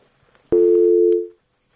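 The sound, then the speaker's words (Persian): A telephone busy tone sounds after a listener's call has dropped: one steady mid-pitched tone, loud and clean, holding for just under a second before cutting off into silence. “بله، یک تماس قطع شد.”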